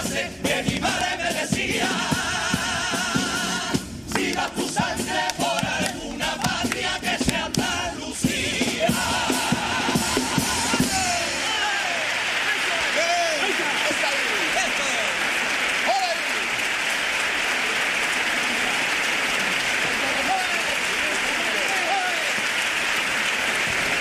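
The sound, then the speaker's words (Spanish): Loud, dense applause from an audience at a carnival contest, reacting to a Paso Doble lyric. It fills roughly the first ten seconds, then gives way to cheering voices and whistles that continue until the end. “La reacción del público a esta segunda letra de Paso Doble.”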